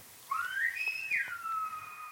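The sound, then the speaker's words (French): A whistled Silbo greeting from La Gomera in the Canary Islands: one continuous, fairly faint whistle that sweeps sharply up, holds a high note, then glides back down, heard alone. “Ce que tu as entendu, c'est le Silbo, c'est une langue utilisée dans l'archipel des Canaries, sur l'île de la Gomera”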